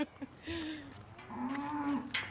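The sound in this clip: A limping cow mooing on a farm: two drawn-out, low, quiet moos, the second slightly longer than the first.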